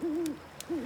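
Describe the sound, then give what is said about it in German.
Owl hooting at night, two low, smooth, drawn-out hoots separated by a short pause. “Hört ihr das auch? Das ist eine Eule.”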